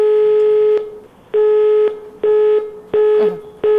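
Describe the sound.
Telephone line signal from a call to a hotline number: a steady mid-pitched tone that sounds in repeated bursts with short silent gaps between them, and no voices.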